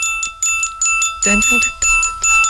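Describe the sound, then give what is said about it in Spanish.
Glockenspiel striking a single note again and again: bright, ringing metallic tones repeated at a steady, even pace, with several clear strikes that each decay before the next. “el Glockenspiel, que parece que está haciendo las notas, pero solo está haciendo una.”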